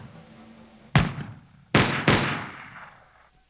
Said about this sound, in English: Whatever the truth, the effect was electrifying. Without orders to do so, the British troops began to fire.